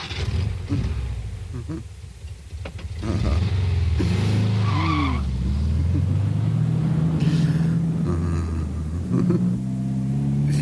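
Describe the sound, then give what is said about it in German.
A car engine runs and revs with a deep, loud rumble, its pitch wavering and climbing as the throttle opens, sustained throughout without voices. “Wie satt der Motor heute klingt.”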